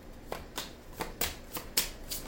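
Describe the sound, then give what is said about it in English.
Tarot cards being shuffled and drawn give soft, papery riffles and flicks, a series of short separate bursts at a fairly even pace, quiet and with no talk. “Let me go ahead. I'm going to take just a few more cards.”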